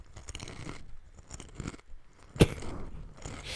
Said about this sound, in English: did you crunch the chip like down on the bottom of your jaw?